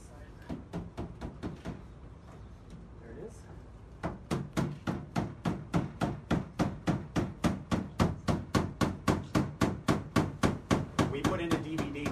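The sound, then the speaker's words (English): Heavy hammer blows strike as a time capsule is cracked open. Sharp, evenly spaced strikes come in a short run, pause for about two seconds, then return as a longer, louder series. “Take a listen as we crack open that capsule. Here we go.”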